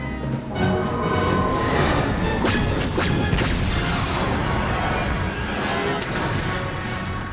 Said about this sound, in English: That third torpedo almost got you. Be careful.